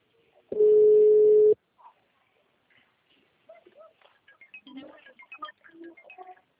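A telephone dial tone sounds while a call is placed, a single loud steady tone lasting about a second, followed by a faint brief blip and then scattered soft, irregular sounds.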